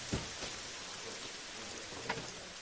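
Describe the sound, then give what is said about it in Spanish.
Rain falls outside an open bar door as a soft, steady hiss. A few faint, drop-like taps stand out against the quiet wash. “abre la puerta del bar y ve la lluvia.”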